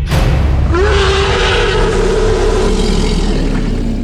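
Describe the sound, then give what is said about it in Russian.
A dragon's guttural roar over rumbling, vibrating ground: a loud, sustained, rough growl held at a steady low pitch above a deep continuous rumble, lasting about four seconds without a break. “Издалека донесся пугающий гортанный рев, сопровождающийся гулкой вибрацией земли.”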